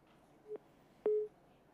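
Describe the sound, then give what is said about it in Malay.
A telephone tone sounds after a dropped call: two faint, brief, mid-pitched beeps, the second slightly longer than the first, against near silence. “Saya dengar panggilan putus.”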